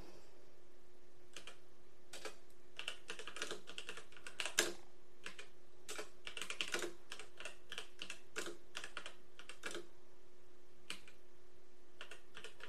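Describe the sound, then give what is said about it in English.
Typing on a computer keyboard: many quick, irregular keystrokes in bursts with short pauses, fairly faint, with no talking. “I typed in how long has CRPS been around?”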